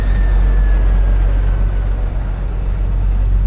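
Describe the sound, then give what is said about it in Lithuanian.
An aircraft flies past in the EuroFly flight simulator game. A steady, loud low rumble carries a thin whining tone that slowly drops in pitch, with no talk over it. “Nu jau girdim, kažkas atskrenda. Nu praskrisk.”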